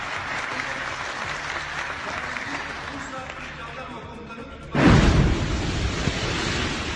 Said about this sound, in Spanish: Ese es el sonido de la bomba que caía muy cerca del Parlamento en el momento en el que se estaba celebrando la sesión.